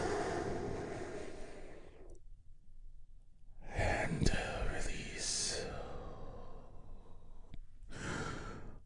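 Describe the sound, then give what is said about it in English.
A big, deep breath taken together as part of a guided calming moment: a long, breathy rush of air, then a short quiet gap, then a longer, fuller release of breath, with another breath starting just before the end. “we begin our healing moment of Zen together by taking a big, deep healing breath all together.”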